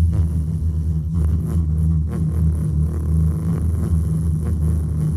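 A fish van drives along with a constant low engine rumble and road drone that stays steady and fairly loud throughout, with faint intermittent rattles above it and no voices.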